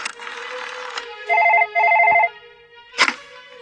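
Telephone ringing after a number is dialled: two loud, steady electronic ring bursts follow a stretch of hissy noise, then a short sharp clack near the end.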